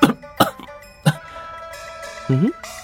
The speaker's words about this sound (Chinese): 白玉堂一个没留神呛着了，咳嗽着看展昭